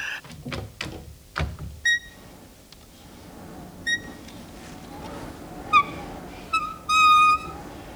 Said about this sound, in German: Nun, das Fenster. Ganz behutsam. Dass es nicht wieder wie eine verräterische Elster knarrt.